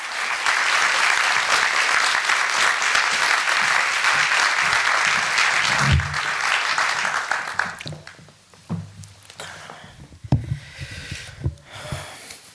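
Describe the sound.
Applause from an audience at the Los Angeles Public Library welcoming guest speakers. Full, steady clapping runs for about six seconds, then dies away into scattered claps and a few soft knocks and handling sounds.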